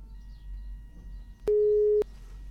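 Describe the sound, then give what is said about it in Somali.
A telephone busy tone sounds after a caller's line drops during a phone-in. One steady, mid-pitched beep of about half a second rises loudly above a faint low hum. “Qadka taleefanka ayaa dhegeystahaasi ka go-ay.”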